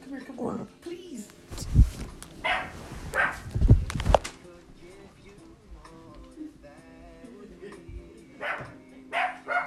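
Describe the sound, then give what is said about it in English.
A dog barks while it stands in a bathtub, giving several loud, sharp barks in uneven bursts. A person talks over the barking and in the gaps between barks. “something's wrong with my dog. He wants to take a bath. He has jumped in the bathtub, y'all, and barking.”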